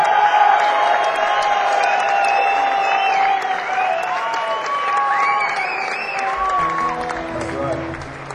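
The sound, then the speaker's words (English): Applause from a live storytelling and music show audience: a loud, sustained wash of clapping and cheering with scattered whoops, easing slightly toward the end. “I want a big round of applause.”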